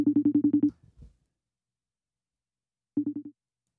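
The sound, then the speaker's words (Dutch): A redialed phone call rings: a quiet, rapid run of short, low electronic tone pulses, a brief pause, then a shorter run of the same pulses. “De verbinding is verbroken. Ik heb niet heel veel geluk met verbinding. Ik ga Ipo opnieuw bellen.”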